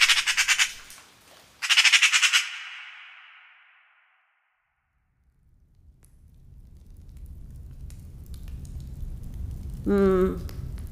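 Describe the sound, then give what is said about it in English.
A single magpie in a forest squawks: a few harsh, raspy bursts at the start, then a long quiet stretch of low rumble, and one more grating call near the end. “No birds in the forest but for one single magpie seeming to stalk our”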